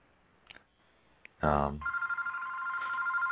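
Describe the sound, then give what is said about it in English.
Skype incoming-call ringtone: a few faint clicks, then a steady, pulsing electronic ring that starts about halfway through and repeats in quick, even beats until the end. “I see. I didn't mute that. Oh, well, that's one of the things when you use Skype. I'm just going to let that go to voicemail.”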